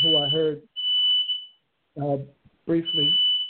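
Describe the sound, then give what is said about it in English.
A shrill smoke alarm in a house where food is burning, sounding a piercing high tone in a few long bursts. A voice talks over it between the beeps. “Is that alarm? Fire alarm? That's here in the house. Okay. He's burning up the food.”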